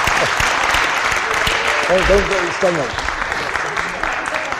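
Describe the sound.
Audience applause welcoming the speaker's mum and dad, who stand up in the crowd: dense, steady clapping that fills the whole stretch, with a voice briefly rising over it midway.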